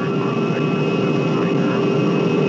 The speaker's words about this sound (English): Your attention, please. We will soon be landing at Westworld, the ultimate resort.